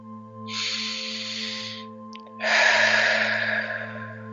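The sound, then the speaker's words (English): A deep breath drawn in during a guided relaxation exercise, then a longer, slow, breathy exhale after a brief pause. Soft steady low tones hum beneath both breaths. “take a deep cleansing breath. Breathe, push your belly way out, breathe as deep as you can, and then let it out.”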